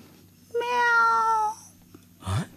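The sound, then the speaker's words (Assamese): A black cat gives one drawn-out, mid-pitched meow that lasts about a second. A brief, softer noise follows it. “মেও মানে মাছ চুৰ কৰি খোৱা কলি মেকুৰীজনী।”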